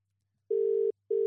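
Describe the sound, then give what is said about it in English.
A telephone dialing tone sounds as a steady, clean mid-pitched beep in two bursts separated by a brief silence, the second burst cut off at the end, with no voices. “Nice quick dial. Normally it takes a few seconds.”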